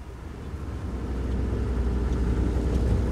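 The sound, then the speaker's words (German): A motorboat engine drones with a steady low rumble as a police boat heads across the Venice canals toward the cemetery island. It holds an even pitch and grows slightly louder over time, with no voices. “Ich habe ein Boot hier, das uns nach San Michele hinausbringen wird.”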